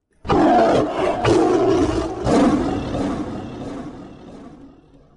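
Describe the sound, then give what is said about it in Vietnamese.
A giant black-and-white tiger roars, one loud, rough, full-throated roar that swells in a few surges before slowly fading, with no other sound around it. “Tất cả điều này tạo nên một hình ảnh, một con hổ khổng lồ màu đen trắng đang ngẩng đầu, gào thét giữa trời đất.”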